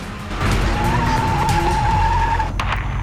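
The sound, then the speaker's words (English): A car speeds away from a house with a loud, sustained tire squeal over rumbling engine noise. The high whine holds fairly steady before breaking off near the end. “Christine speeds away, Joey running after her”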